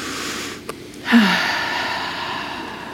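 A deep breath taken during a prayer: after about a second of near quiet and a faint click, a soft breathy rush starts and holds steady to the end, with no talking.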